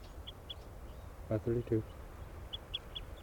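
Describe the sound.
Bird calling excitedly: short, high chirps, a few near the start and a few more near the end, over a faint steady background hiss.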